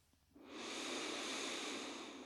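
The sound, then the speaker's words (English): A deep, full breath drawn in during a guided relaxation, an airy, steady inhale that starts after a quiet half second and holds evenly to the end. “Close your eyes and take a deep, full breath.”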